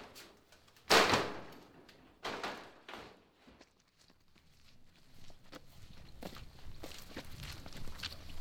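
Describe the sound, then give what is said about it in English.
Footsteps of people walking across a farm toward another building. A few louder thumps come early, then quieter, fairly regular steps continue over faint background noise. “We walk across the farm to another building.”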